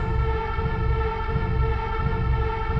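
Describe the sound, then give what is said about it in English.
A train travels at great speed through a city, producing a continuous loud roar with a steady tonal hum. Rhythmic low thumps pulse underneath throughout. “on a train traveling at great speed through an endless city”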